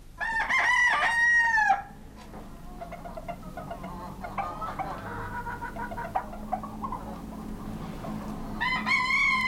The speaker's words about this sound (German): Schon die Hähne.